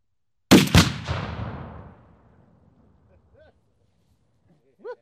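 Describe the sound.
A single loud gunshot cracks out, and its long tail fades away over about two seconds into near silence.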